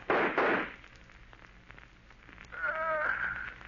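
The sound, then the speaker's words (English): A gunshot rings out in a 1938 radio drama as a single sharp, loud burst at the start, followed after a quiet pause by a brief wavering voiced sound. “If you won't shoot, I will. I'll get him even if I can't see him.”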